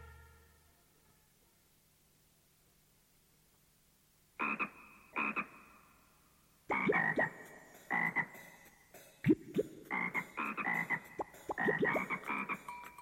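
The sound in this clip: A frog croaks in two short separate bursts, then breaks into a long run of many loud, rasping croaks in quick, irregular succession, with no voices.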